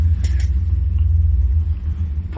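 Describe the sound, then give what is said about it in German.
Elevator ride with a steady low rumbling hum from the moving lift that holds throughout, and a few faint brief knocks on top. “Wir fahren gleich mal eine muntere Runde Fahrstuhl. Eine dann, Runde hier, ne? Ja. Na, ich habe mal die 5 gedrückt.”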